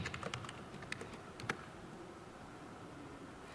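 Typing on a computer keyboard during a live tech demo: a few faint, scattered key clicks in the first moments, then only a steady hiss fills the rest.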